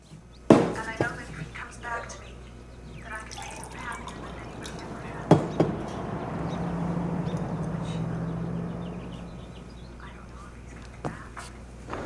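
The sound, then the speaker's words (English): Water poured from a jug into a glass, a steady liquid rush lasting several seconds, with a couple of sharp knocks before and during the pour. “Looking hot, she pours herself a glass of water from a jug.”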